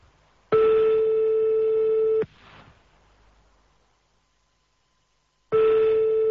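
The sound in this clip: Telephone line tones while calling someone: two long, steady mid-pitched beeps separated by a long silence, with a brief faint crackle after the first and the second tone running to the end.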